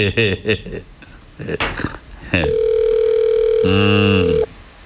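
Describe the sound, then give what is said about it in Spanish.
A steady telephone dial tone sounds as a call is placed, holding one unbroken pitch for about two seconds after a stretch of Spanish speech, then cutting off. “Déjame llamar a Aridio. Estoy llamando a Aridio. Aridio Castillo. Estoy llamando a Aridio Castillo.”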